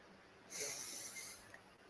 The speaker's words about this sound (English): everyone, let's take a deep breath in.